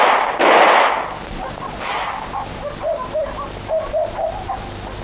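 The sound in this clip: Gunfire in a dramatic scene: a loud, harsh blast bursts out at the start, then shouting voices carry on over a lower, rougher background.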